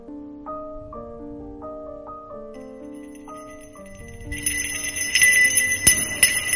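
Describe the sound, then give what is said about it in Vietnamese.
A small bell rings with bright, high tinkling strikes that grow busier in the second half, following a passage of soft, melodic chime-like notes. “Nhưng qua một lúc, chiếc chuông lại càng rung mạnh hơn. Từng tiếng chuông reo nhẹ gợi cho nàng một hồi ức không tốt.”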